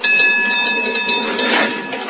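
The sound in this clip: A route-seven tram car rolls along with a dense, steady rumble and rattle, thin metallic whining tones running through it, and the noise swells briefly near the end before easing off.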